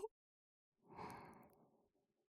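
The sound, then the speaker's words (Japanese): A single slow, deep breath drawn in, a soft, airy rush that swells and then tapers over about a second and a half, heard alone after a brief click. “息を吸って。”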